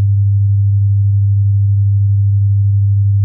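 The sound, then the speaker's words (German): A steady, low pure tone holds one unchanging pitch, loud and unbroken for about three seconds with nothing else heard. “Es ist ein bestimmter Ton, ein 100-Hertz-Ton. Und der klingt so.”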